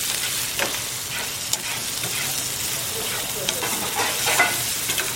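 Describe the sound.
Carrots and leeks frying in a pan at a cooking school in Taiwan: a continuous sizzle with scrapes and clicks of stirring, steady throughout and without talk.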